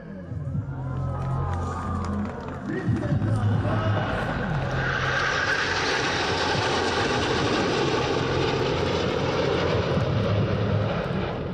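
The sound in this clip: Aircraft engines roar at an air show in İzmir featuring fighter jets and helicopters. Lower humming engine tones open, then a loud, broad roar swells after a few seconds and holds steady to the end.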